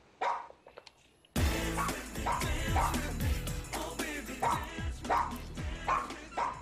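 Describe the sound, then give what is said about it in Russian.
A dog barks loudly and repeatedly in an agitated series of sharp, regularly spaced barks with yips and whimpers mixed in, after a brief quieter stretch at the start. “Такие хлебала, ненавижу тебя! Гребаная псина!”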